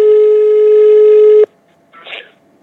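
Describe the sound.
A telephone tone sounds as a call is placed, one loud, steady, held note lasting about a second and a half before it cuts off abruptly, followed by a short, fainter burst of sound.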